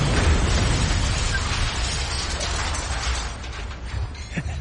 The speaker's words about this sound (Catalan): És el punt exacte on han de fer explotar la càrrega.